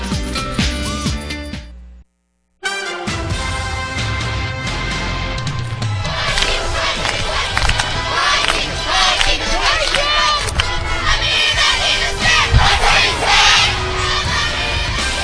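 Blue Demon Nation fans roar across a football stadium at a Monday Night Football second-round playoff game. A dense, loud wash of crowd noise drops out briefly near the start, then swells again in uneven surges.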